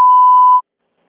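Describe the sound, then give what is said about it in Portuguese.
A voicemail beep sounds as a single steady, mid-pitched electronic tone lasting just over half a second, then cuts off sharply into silence. “A chamada está sendo encaminhada para a caixa de mensagens e estará sujeita à cobrança após o sinal.”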